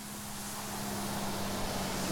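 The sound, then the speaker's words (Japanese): Bus pulling away from a stop, a steady engine drone with a low hum and broad rushing noise that holds at a moderate level. “ああ、もうバス行っちゃったよ。”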